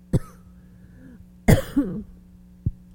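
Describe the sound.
Coughing and throat clearing from someone with a tickle in the throat: a few short, sharp bursts and one longer, rougher clearing in the middle, separated by quiet stretches over a low hum.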